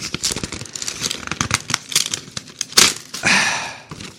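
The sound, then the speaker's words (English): A paper envelope is torn open with a finger. Rapid crinkling and rustling build into a sharp tearing burst, followed by a longer rip and a few scattered paper sounds. “so let's get my finger in there. Jeez. Finger fuck this envelope a little bit. Here we go.”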